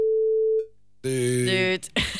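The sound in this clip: Telephone ringing tone on a call: a single steady tone that cuts off, followed after a short pause by a recorded voice answering as voicemail.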